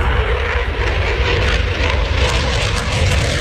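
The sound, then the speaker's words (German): A Eurofighter jet takes off with a loud, unbroken engine roar, broad and rushing with a heavy rumbling low end, steady throughout. “So klingt es, wenn ein Eurofighter startet.”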